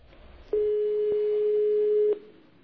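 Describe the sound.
A telephone line tone while a call is placed: one steady, mid-pitched continuous beep lasting about a second and a half over faint hiss, with no talk.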